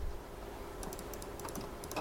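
Computer mouse clicking: many quick, sharp, faint ticks in an uneven run over a low steady hiss, starting partway in and continuing to the end.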